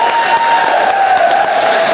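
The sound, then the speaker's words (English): Audience applause for two women performers, a dense, steady clatter of many hands clapping at a loud, even level for the whole stretch, with a faint sustained tone running beneath the crowd noise. “Huge round of applause for those two ladies, please.”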